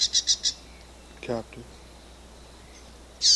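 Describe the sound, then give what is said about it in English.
Calls of a wild female bird: four quick high chirps in a fast run, then a lone louder call at the end, with a faint lower burst in between. “We have a wild female over the top, and wild bird,”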